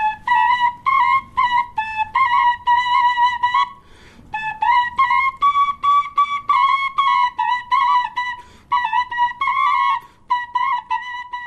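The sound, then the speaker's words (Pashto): Two shepeli flutes played together give a bright, whistling melody of short, repeated notes in brisk phrases, loud and steady, broken by a few brief pauses and a longer gap near the middle. “یوه نه بلکې غبرګې شپېلۍ په یوه وخت ژغوي تر څو مینوال یې زیات خوند ورڅخه واخلي”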